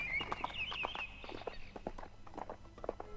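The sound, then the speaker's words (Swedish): Horse hooves clop as a rider rides away on a foggy morning, a quick uneven series of hoofbeats at moderate loudness. Birds chirp briefly near the start. “Nästa morgon stod jag vid grinden och såg honom rida sin väg.”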